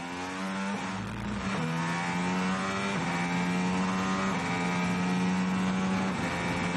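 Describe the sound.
A Formula 1 car engine screams at high revs during Sainz's fast qualifying lap, a loud, steady, piercing whine whose pitch climbs and then drops back at several gear shifts.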